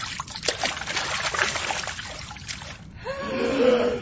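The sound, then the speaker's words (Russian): Splash of a body shoved into a boiling cauldron: a sustained burst of watery splashing and gurgling that runs on without a break, fairly faint overall and with no voices. “на Стаса горсть соли и, пихнув в спину, столкнул его в котел”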